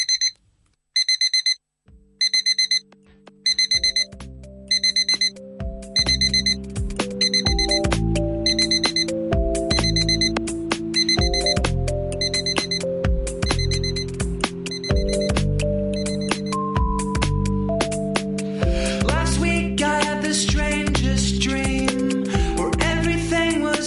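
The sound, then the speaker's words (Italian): A ringing alarm clock trill: rapid electronic beeping in short clustered bursts that soon becomes continuous, growing denser and more layered with sustained tones, loud and insistent throughout. “Quelle sveglie che fanno un trillo che tutti noi conosciamo, un suono terrificante, quasi ancestrale”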